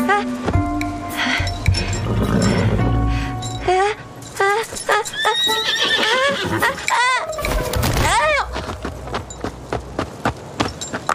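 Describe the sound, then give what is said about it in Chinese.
A horse neighs in several loud, wavering whinnies, with a fast run of clip-clopping hoofbeats toward the end. “乖马儿，我就骑一下啊。”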